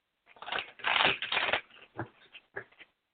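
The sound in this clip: Tarot cards are shuffled and drawn from the deck in a few faint papery rustling bursts, followed by several short, separate flicks and snaps as cards are pulled.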